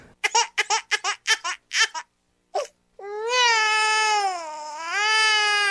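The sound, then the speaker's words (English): A crybaby sound effect: many quick, choppy laugh-like bursts, a brief gap, then a long, loud infant-style wail whose pitch wavers up and down before swelling again. “Start the crybaby sound effect.”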